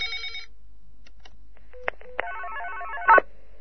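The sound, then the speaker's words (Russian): A telephone rings with an incoming call: a couple of sharp clicks, then a warbling electronic trill for about a second, ending in a brief louder burst. “Итак, походу, мне звонит японский дед, товарищи.”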